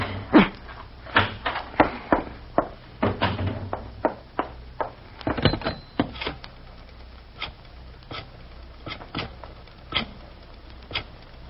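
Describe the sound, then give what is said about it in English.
A key fumbling in a stuck door lock: many sharp, irregular metallic clicks, rattles and scrapes, some in quick clusters, others spaced apart, fairly faint throughout. “Key. Where's my key? This darn lock. This darn lock.”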